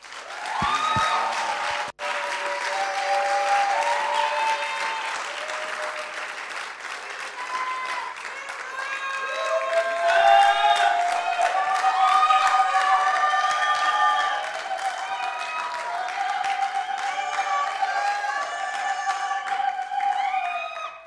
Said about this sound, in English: So let's, before we start, let's just celebrate Jesus. Let's give him a hand.